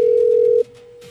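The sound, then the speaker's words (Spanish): A telephone line tone sounds while a call is being dialed: a steady, pure mid-pitched tone, loud for about half a second, then dropping to a quieter level that continues to the end. No voices are heard. “Estamos marcándole a Alexis que dijo que lo llamáramos.”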